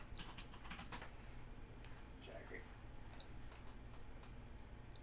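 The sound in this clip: Typing on a computer keyboard: faint, quick runs of light key clicks that come in uneven bursts, with a murmur of voices in the background.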